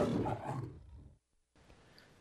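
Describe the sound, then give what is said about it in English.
A lion's roar played as a sound effect: one loud, rough, rumbling roar that fades out over about a second, then a short silence and a faint hiss. “fading in to line in 3, 2, 1, spacebar, lion roars.”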